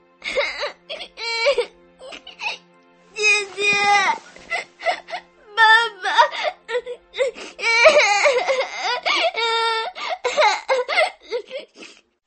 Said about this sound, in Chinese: 别哭了，哎，别哭了，说谁欺负你了？